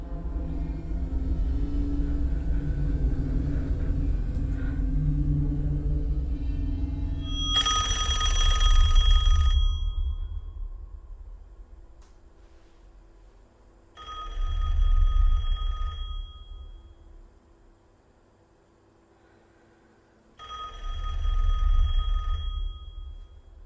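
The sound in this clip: A telephone bell rings in three separate bursts with quiet pauses between them, each a bright metallic jangle over a low rumble, after a stretch of low, droning tones.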